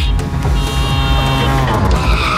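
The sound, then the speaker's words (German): A loud tuk-tuk engine roars past as a radio sound effect, a dense continuous motor drone with a whining harmonic edge that holds strong for the whole two seconds. “Da ist auch gerade eben das Tuk-Tuk durch Deutschlands Biggest Beats gefahren.”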